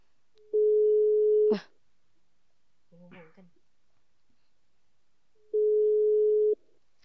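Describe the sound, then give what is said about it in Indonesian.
Ringback tone of an outgoing telephone call: two steady, mid-pitched tones, each lasting about a second and set roughly four seconds apart, with a brief faint murmur of voice between them. “tanya-tanya ustazah ditelepon dulu ya guys”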